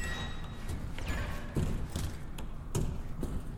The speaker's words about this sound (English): I think I just set a bomb. Oh, God. Get out of there. What? I just set something down. It looks like a flashbang on spider legs.